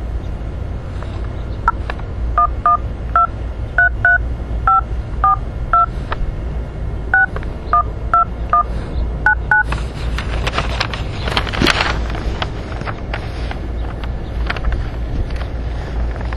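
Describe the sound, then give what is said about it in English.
Touch-tone beeps of a telephone number being dialed on a prepaid calling line: a rapid, unevenly spaced series of many short, mid-pitched tones over steady background noise, followed by a rougher rushing hiss. “Please enter the telephone number you wish to dial now, or press *0 to recharge”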